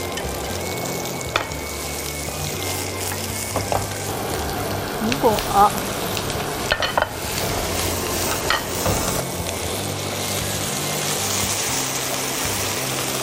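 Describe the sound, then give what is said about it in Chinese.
Food deep-frying in hot oil over high heat in a final fry to crisp the outside, a loud, steady sizzle and crackle that runs the whole way through. “然后开大火。 最后一次了，对吗？ 对。 这次是要让它炸到 外面酥脆。”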